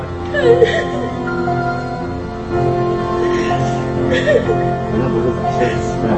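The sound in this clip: A woman sobs uncontrollably in front of her young daughter. Broken, whimpering cries and catching gasps continue for several seconds.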